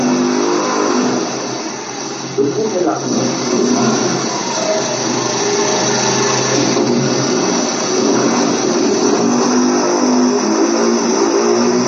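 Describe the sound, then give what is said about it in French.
Motorcycle and truck traffic passing outside makes a continuous, loud engine rumble with revving swells throughout, and no voices are heard. “il y a un bruit de moto, de camion. Moto est partout.”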